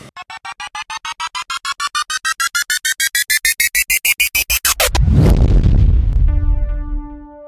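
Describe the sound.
A cartoonish explosion sound effect: a long run of rapid pulses climbing steadily in pitch, as if something is being pumped up, then a loud burst that decays into a roar, followed by a few steady tones.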